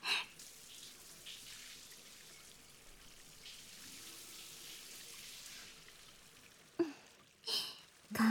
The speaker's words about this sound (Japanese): オッケー、泡は全部シャワーで流して、